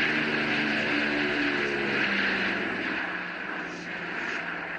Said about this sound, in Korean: 멀리 공중에서 웅장한 프로펠러 소리가 들리기 시작했습니다.